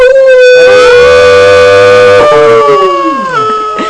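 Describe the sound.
A loud, sustained howl like a dog's, imitated by a human voice, holds a steady pitch, dips briefly, then slides downward at the end.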